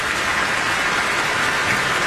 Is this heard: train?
no